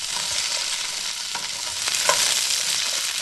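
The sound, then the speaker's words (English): Vegetables sizzle steadily in a pan as they are turned with spring-loaded tongs. A dense, hissing fry runs throughout, with a few soft clicks and scrapes from the turning, and no voices. “what I love to use, my favorite utensil for this, is a big tong it's spring-loaded so I can operate it with one hand and hold the pan with the other. So now I'm going to be turning them with the tong.”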